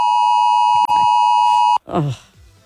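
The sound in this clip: An alarm beeps in one long, steady, high pure tone, then cuts off abruptly; a voice follows.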